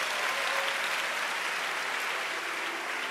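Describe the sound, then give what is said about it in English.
A church audience clapping their hands, a dense, steady wash of many overlapping claps held at an even level from start to finish, with no single claps standing out. “Clap your hands for Jesus.”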